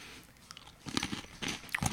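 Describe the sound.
Crunchy chewing of Apple Jacks, an apple-cinnamon loop cereal, with a few sharp, crackling bites and grinding crunches in short bursts, faint at first and growing louder toward the end.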